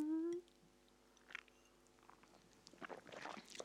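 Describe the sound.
Lebkuchen gingerbread being chewed: a short voice at the start gives way to soft, sticky chewing clicks and moist mouth sounds, growing slightly busier toward the end.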